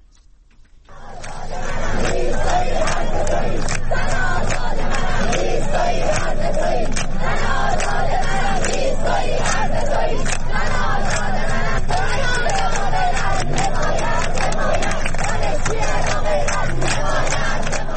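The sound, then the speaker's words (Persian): Islamic Azad University students in Mashhad chanting protest slogans: loud massed voices roar in rhythmic unison after a brief quiet opening and keep up a steady, dense chant to the end. “بنابر گزارش ها دانشجویان دانشگاه آزاد در مشهد دست به تجمع اعتراضی زدند و شعارهایی در محکومیت فضای سرکوب سر دادند.”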